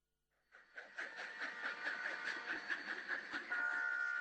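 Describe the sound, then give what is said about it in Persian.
A train runs along a new railway line in Herat, Afghanistan. Its wheels beat a steady, rhythmic clatter over the tracks that fades in quickly and stays loud, and a high metallic tone rings through near the end. “صدای ریل هایی که بر خاک هرات کشیده می شوند، صدای امید و اتصال”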